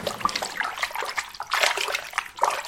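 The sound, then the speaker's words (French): Water gurgling and sloshing as a bathtub is unplugged and drains, with a few uneven bursts of bubbling, fairly loud and alone. “Et il débouche la baignoire. Gloup, gloup, gloup.”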